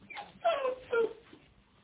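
A dog whimpering: two short, high, tonal whines close together, each rising briefly before trailing off, with quiet background and no talk.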